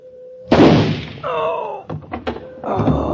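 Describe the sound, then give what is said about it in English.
A shotgun goes off in a single sharp, heavy blast, followed by a voice and a few further knocking noises. “The gun went off.”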